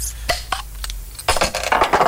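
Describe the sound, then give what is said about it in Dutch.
Beer poured from a freshly opened bottle into a glass: a few bright glassy clinks come first, then a steady fizzing, splashing pour fills the second half. “En dat schenkgeluid is altijd zo fijn. Hop, glas erbij.”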